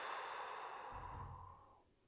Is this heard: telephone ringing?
no